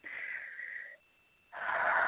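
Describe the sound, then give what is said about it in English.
Deep breaths drawn in, heard as soft, airy hissing: a long breath of about a second, a brief silent pause, then another breath, alone without talk. “So I also need a deep breath.”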